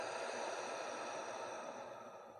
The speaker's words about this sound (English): Take a slow, deep breath in through your nose and out through your mouth.